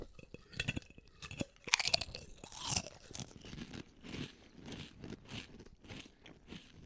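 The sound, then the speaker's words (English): Crisp crunching of Clancy's all-dressed potato chips with barbecue and ketchup flavour: several sharp bites followed by steady rhythmic chewing, fairly quiet. “You didn't give me any good chips. I mean, other than this one. This is the best one.”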